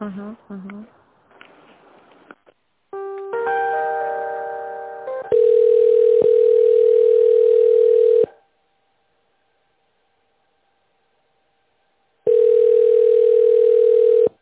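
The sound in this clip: Telephone line tones while a call is being transferred: a brief chord of stacked tones, then a loud steady tone that stops, a quiet gap with a faint hum, and the same steady tone again.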